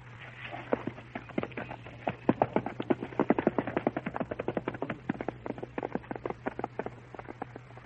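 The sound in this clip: Horse hooves clip-clop as a rider approaches Fort Zinzendorf, picking a way among the dead. Many quick, uneven hoofbeats sound over a faint steady hum and grow busier midway.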